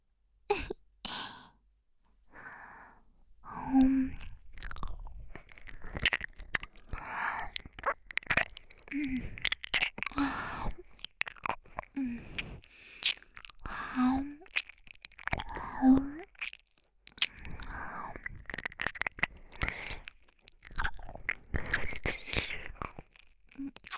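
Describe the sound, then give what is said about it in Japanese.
Close-up ear licking with wet, smacking mouth noises and soft crunchy clicks in irregular bursts, interspersed with quiet whispered talk. “我慢して私に耳を舐められなさい。”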